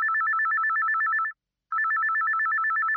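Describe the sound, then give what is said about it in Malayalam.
A telephone rings for an incoming call: two long electronic trilling rings separated by a short pause, loud and steady, with no voices. “വീണ്ടും ഒരു നല്ല പാട്ടുപ്രേമി നമ്മുടെ അടുത്തേക്ക് എത്തുന്നു ഒരു കോളിലൂടെ.”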